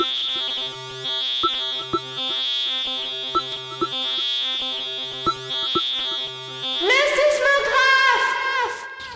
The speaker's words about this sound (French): Bah oui, en plus, on, a un, petit jingle.